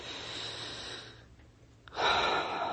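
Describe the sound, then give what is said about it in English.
A long, deep breath: a soft, airy rush of breath that fades into a brief near-silence, then a fuller, louder breathy stream of air, all quiet and unhurried. “let's take a long, deep breath.”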